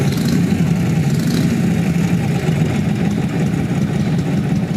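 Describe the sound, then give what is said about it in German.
A Harley-Davidson Knucklehead motorcycle engine, a design built from 1936 to 1947, runs at a steady idle, giving a loud, continuous low rumble with a fast, even pulse and no clear revving. “Made from 1936 to 1947, this is the Knucklehead engine.”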